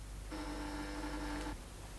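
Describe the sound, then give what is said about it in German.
A telephone rings once in a radio drama: a steady, buzzing electric tone lasts just over a second against a constant hiss, then cuts off abruptly. “Das Telefon. Ich muss hingehen.”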